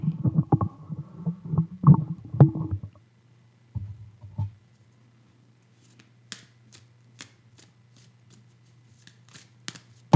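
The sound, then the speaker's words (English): A card is flipped from a deck: a burst of rustling, shuffling handling comes first, then a low hum with scattered soft ticks and snaps. “Let's flip a card about that reading. Not exactly about how the book is, but flip a card on my reading.”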